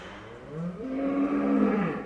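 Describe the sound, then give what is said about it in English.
A dairy cow moos in a freestall barn holding about 700 milking cows on a California Central Valley farm, one long, low, drawn-out moo with a soft background murmur. “This is a freestall barn, you know, which holds about 700 milking cows. This morning, those cows are calmly chewing on breakfast.”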